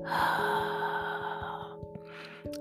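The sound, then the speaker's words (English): A deep breath is drawn in and then let out, soft airy rushes heard over quiet sustained tones and faint regular ticks. “Let us close our eyes and take a deep breath in and a deep breath out.”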